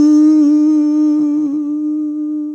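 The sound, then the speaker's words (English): A steady oscillator tone from an Akai S900 sampler holds one loud, buzzy pitch with strong overtones for the whole stretch, briefly wavering near the middle before settling back to an unchanging hum. “And it's just a tone. It's an oscillator.”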